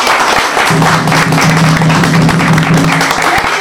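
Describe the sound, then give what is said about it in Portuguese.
Hands clap in steady, dense applause that runs loud and even through the whole clip. “Então nós estamos de parabéns, vou bater palmas.”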